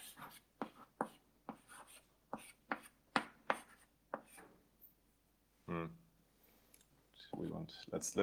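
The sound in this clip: Writing on a board during a math lecture: many short, crisp taps and scratchy strokes in an uneven rhythm, with gaps between them, and a voice breaking in briefly near the end.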